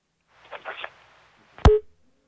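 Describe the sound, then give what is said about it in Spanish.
A telephone line cutting off mid-call: a sharp click followed by one short, steady beep tone, after a brief stretch of murmured voice. “Bueno, se cortó su llamada, ¿no? ¿Eh? Sí, lo cortó.”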